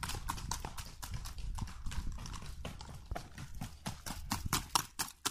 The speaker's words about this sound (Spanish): Todas las modalidades son diferentes y los sonidos son diferentes. Hay trote y galope, paso fino, trocha